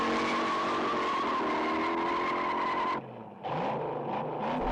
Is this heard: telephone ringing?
no